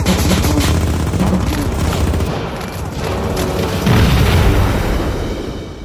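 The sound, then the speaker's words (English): Gunfire from German positions on troops crossing a cratered clifftop in Calvados, a dense continuous barrage of bursts and booming explosions, loud and sustained, with no clear gaps between shots. “And then the Germans open fire on them again.”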